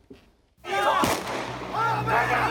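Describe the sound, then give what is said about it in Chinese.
A single sharp gunshot, a police warning shot fired into the air to control a chaotic scene, cracks loudly amid ongoing shouting voices and commotion. “警察对空鸣枪，试图控制混乱场面”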